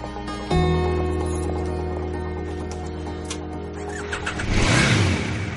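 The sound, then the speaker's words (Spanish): A powerful motorcycle engine starts with an abrupt catch and settles into a steady, rumbling idle, then revs loudly in a rising burst near the end. “H, ya solo, vuelve a montarse en su potente moto.”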